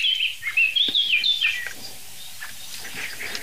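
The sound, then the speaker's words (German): A blackbird gives alarm calls, a rapid, shrill chattering run of high notes in the first half that then stops, leaving near quiet. “Amsel bleibt nervös.”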